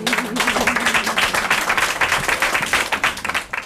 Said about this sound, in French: Voilà, on sort les mains de sa poche et on applaudit le spectacle. Quel beau spectacle.